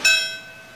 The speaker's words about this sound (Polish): Każdy z takich momentów poprzedzany jest biciem dzwonu.